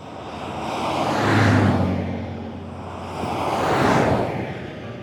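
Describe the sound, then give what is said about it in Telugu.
Vehicles setting off to move a prisoner from custody to jail: two broad rushing engine swells rise and fade one after the other over a low steady rumble. “మరుసటి రోజు 9:30 రాయ్ని custody నుంచి జైలుకు తరలించడానికి బండ్లు బయలుదేరాయి.”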